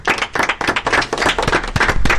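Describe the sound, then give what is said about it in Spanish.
Applause from a group of people: dense, loud, steady clapping that continues throughout without voices. “Bueno, un aplauso.”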